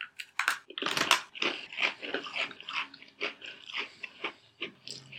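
Someone bites into and chews a chocolate cookie, making many quiet, crisp crunches in an irregular rhythm, with no talk.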